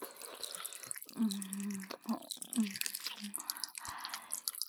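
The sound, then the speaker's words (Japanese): Many wet, smacking kissing sounds in quick irregular succession, soft and close, with low voiced murmurs humming between some of them. “ほーら、大人のいやらしいキス、お 教えてあげる。”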